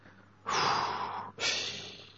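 Two long, forceful breaths, one after the other, taken on purpose as part of a prayerful breathing exercise. Each is a loud, airy rush with no talk around it.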